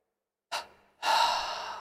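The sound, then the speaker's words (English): A deep breath drawn in: a short, sharp intake, then a longer, steady breathy inhale that carries on to the end, with no other sound. “Take a deep breath. Hold and tense your body.”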